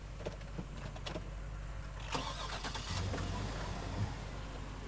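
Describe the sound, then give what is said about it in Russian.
A car engine is started, with a few faint clicks and thuds before a low, steady engine rumble sets in and carries on quietly to the end. “потом заводит машину”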